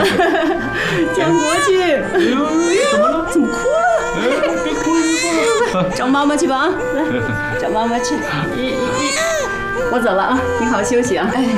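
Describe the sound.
A newborn baby cries in wavering, wailing bursts beneath nearly continuous adult talk in a home setting, the cries loud and persistent throughout.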